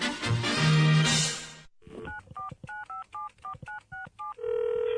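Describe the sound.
Touch-tone dialing from a telephone placing a call: after a loud, noisy opening, a quick run of many short, evenly spaced keypad beeps sounds alone, ending in a steady held tone.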